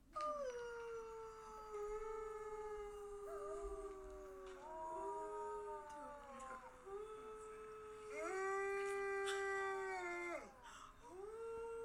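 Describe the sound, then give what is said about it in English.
Wolves and wolf dogs on a farm property howl together in a sustained chorus for the whole clip. Several long, overlapping tonal howls glide and bend in pitch, and one set of howls climbs noticeably higher near the end. “So if you heard in the background, after we got the wolves going, the wolves that were on the property, the wolf dogs rather, all started to go with them.”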